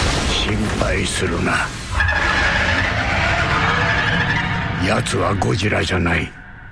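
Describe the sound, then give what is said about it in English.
Rodan monster sound effect from a film trailer: a loud, sustained shrieking screech with a steady high whine, framed by other vocal sounds before and after. “But that sound effect, that sounds to me like Rodan. That's the big flying one.”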